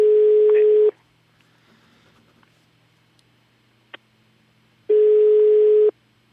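Telephone ringback tone heard while placing a call: two steady mid-pitched tones, each about a second long, separated by a long silence that holds only a few faint clicks.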